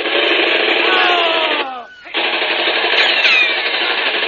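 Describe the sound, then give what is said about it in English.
Rapid gunfire from a gun in a radio drama rattles in a dense, continuous burst, breaks off briefly about halfway, then resumes just as loud. “Okay, this gun will get me even. Here's where you get it, Blackie.”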